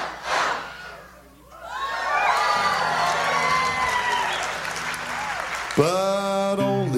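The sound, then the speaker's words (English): Audience clapping and cheering as a sung counting song about little ducks nears its end, steady applause mixed with whoops and shouts, and a voice rising loudly over it near the close. “Why are these people clapping? I think they realize the song is almost over.”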